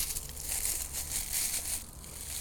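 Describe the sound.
Dry crinkling and crushing of a dried herb leaf mixture being pressed into a fabric scent sachet for monastery-style home herbal remedies, a steady rustling texture that continues without pause and with no voices.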